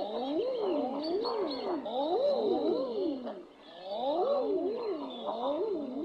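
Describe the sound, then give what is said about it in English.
Male common eiders give their mating calls: overlapping, rising-and-falling cooing notes repeated in bursts, like surprised murmurs, with a brief lull partway through before the calling resumes. “They sound as if they've just heard a particularly juicy piece of gossip. The common eider is the largest duck in the Northern Hemisphere.”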